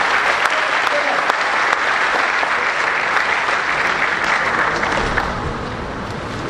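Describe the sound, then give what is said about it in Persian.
A church audience applauding: sustained, dense clapping from a large crowd, loud and even throughout, easing slightly toward the end. “برای وجود یکدیگر دست بزنید.”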